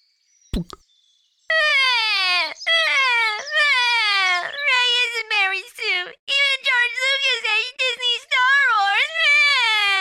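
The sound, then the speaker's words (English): Whining, baby-like wailing cries of harvested mandrake-like sprouts pulled from the mud, many wavering, high-pitched cries in quick succession, loud and overlapping, preceded by a brief sharp knock-like click. “These rows of sprouts that look like mud-stuck mandrakes will be our future listeners, Matt. Mandrakes? They look more like man babies. I hear they whine like mandrakes, too. Here, let's try harvesting a few.”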